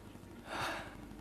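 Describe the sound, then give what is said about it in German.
A single deep breath, a soft and airy inhale that swells briefly and fades, faint and heard alone. “Ich atme tief durch.”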